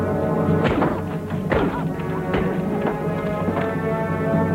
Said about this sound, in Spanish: Después de golpearla, cierra la puerta de la camioneta con la joven dentro.